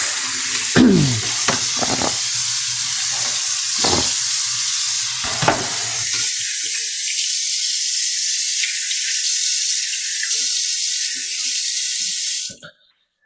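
Running tap water as corn syrup is rinsed off hands, a loud steady rushing hiss broken by splashes and handling knocks early on, then a smoother flow until the water shuts off near the end.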